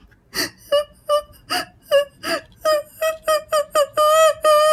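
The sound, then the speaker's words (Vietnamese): Muffled, choked sobbing of a girl: many short, wavering wail-like sobs in a quick, uneven rhythm, the last few drawn out longer, loud and alone without talk. “nghe cái tiếng giống như là tiếng khóc mà theo cái kiểu ấm ức á các bạn”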